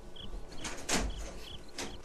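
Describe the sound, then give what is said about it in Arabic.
A door being opened, heard as a rough, scraping rush with a louder knock near the middle, over steady background noise and faint repeated high chirps, with no voices. “افتح الباب ودعه يدخل”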